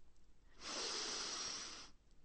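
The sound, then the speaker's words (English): A person sniffs in the air as if catching the smell of freshly baked apples in a house: one long, steady nasal inhale with a breathy hiss lasting a little over a second, heard alone without any talk. “Yes, they sniff.”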